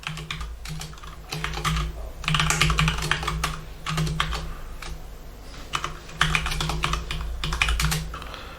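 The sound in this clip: Typing on a computer keyboard while a server block is entered into a configuration file: many quick, irregular key clacks in a steady stream, over a faint low hum.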